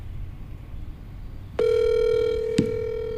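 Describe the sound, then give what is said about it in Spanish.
An outgoing telephone call ringing unanswered: after quiet line hiss, a steady electronic ringback tone starts partway through and holds to the end, with a brief click near the close. “Vamos a marcarle ya a Real y Vázquez. No contesta.”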